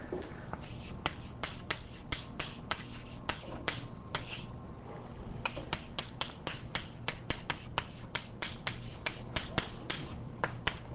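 Many sharp, irregular taps and short scratches of an equation being written on a board, a busy run of small clicks with brief pauses and no talk.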